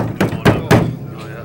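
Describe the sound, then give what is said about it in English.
Three firm knocks on a mahogany house door on a rainy May day, evenly spaced sharp thuds over a low steady background. “a badly dressed delegation went up to Isaac Murphy's house, knocked on his mahogany door,”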